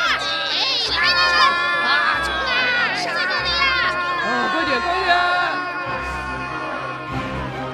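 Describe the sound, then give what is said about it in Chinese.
Enemy soldiers shout in the woods: a dense, continuous mass of loud, high-pitched yells and cries from many voices, with no quiet gaps. “就在这时候，树林中敌人的呐喊声也逐渐逼近。”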